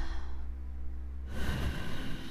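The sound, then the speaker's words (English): A single deep breath drawn in during a guided breathing exercise, a soft airy rush that begins about halfway through and continues to the end, heard alone without talk. “now let's take a nice deep breath together. In,”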